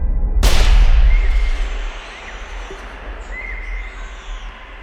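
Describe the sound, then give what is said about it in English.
A single gunshot fired in the jungle, a sharp, loud crack that rolls into a long, fading echo, followed by a few scattered bird chirps. “Fired at the pair of eyes I'd first seen. Then all the eyes disappeared, while from the jungle came a chattering and a twittering of monkeys and birds as the echoes of the shot went flapping away.”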